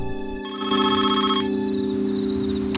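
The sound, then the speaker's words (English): A telephone rings with a bright electronic tone that holds steady and continuous, rising in intensity soon after it starts and sounding alone. “The phone rings, but he doesn't answer it.”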